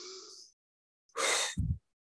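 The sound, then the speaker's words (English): A deep breath taken while stretching the arms after waking in the morning: a loud, breathy rush lasting about half a second ends in a short, low puff. A fainter breathy sound comes before it. “I wake up every single morning and I stretch my arms out like this and I breathe.”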